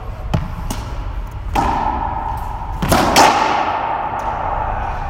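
A racquet strikes a ball that rebounds off the wall during a kiss-lob practice drill, giving several sharp thuds and smacks at irregular intervals over a steady low background hum.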